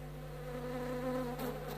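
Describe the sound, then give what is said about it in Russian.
A swarm of flies buzzes around a town strewn with bodies, making a steady, faint, droning hum with a rich layered tone. It is heard alone with no voices. “Что это? О, маэстро, сколько мух!”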